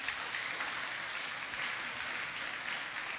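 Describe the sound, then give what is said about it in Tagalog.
A church audience applauds in a steady, continuous wash of clapping at an even, moderate level throughout. “Kaya palakpakan natin ang Panginoon.”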